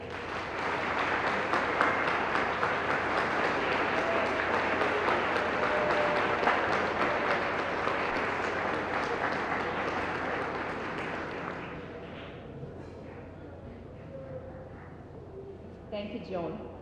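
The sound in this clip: An audience applauds in welcome for the fair board manager at the opening night ceremony of the 1974 Alaska State Fair. The clapping is dense and steady, then thins and fades out near the end.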